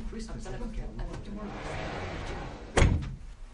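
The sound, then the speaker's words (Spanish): A door is shut behind someone leaving a meeting room: one heavy, sharp thud lands near the end over a continuous busy background. “Luego, cierra la puerta tras él.”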